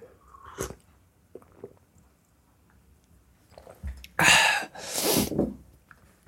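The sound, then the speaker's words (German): Quick sips of coffee: a few soft mouth clicks, then two loud, breathy slurping rushes close together, with no talking. “Ich muss einen kurzen Schluck Kaffee trinken.”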